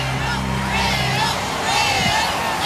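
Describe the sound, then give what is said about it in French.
Hundreds of thousands of faithful cheer Pope Leo XIV at a giant open-air mass on Place de la Concorde in Paris: a dense, unbroken roar of crowd voices with shouts rising and falling throughout. “Vous les entendez, ces centaines de milliers de fidèles venus acclamer le pape Léon XIV qui a tenu une messe géante, place de la Concorde, après une descente des Champs-Élysées en papa mobile.”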